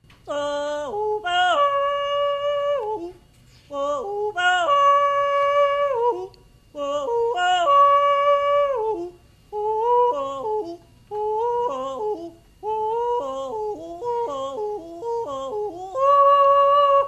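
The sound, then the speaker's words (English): A traditional holler, a loud long-distance call by a single voice: long sustained phrases that leap sharply between high and low notes in a yodel-like way, repeated in many bursts with brief pauses for breath. “That's the sound of a holler, and it is what some consider to be the earliest form of human communication.”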